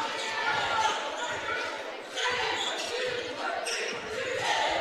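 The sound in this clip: Basketball dribbled on a court during an Aggies game, repeated bounces blending into steady crowd noise throughout.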